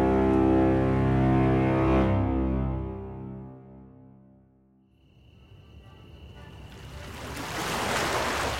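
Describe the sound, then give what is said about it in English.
Waves wash through a harbor with ships. Sustained tones fade away first, then the broad, hissing surf swells and grows steadily louder toward the end. “I was back where all my adventures took me. Back to the harbor. Back to the ships bound for somewhere.”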